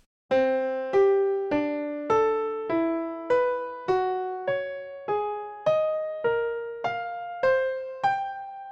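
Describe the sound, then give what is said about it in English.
Fourteen evenly spaced tones alternate between rising a perfect fifth (3:2 ratio) and falling a perfect fourth (4:3 ratio), so the line zigzags steadily upward. Each note starts sharply and decays, with a clear, bright timbre. “Each rise uses the tuning ratio 3 to 2, generating an ascending perfect fifth. Each fall uses 4 to 3, a descending perfect fourth, which together sounds like this.”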